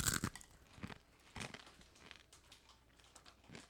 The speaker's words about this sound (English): are all kind of crushed and foldy chips. I don't care. I'll eat it.